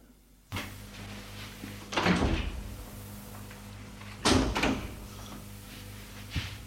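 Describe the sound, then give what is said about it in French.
Knocking on a door, a few dull raps in two separate clusters followed by one quieter knock, over a low steady hum. “On a frappé à la porte.”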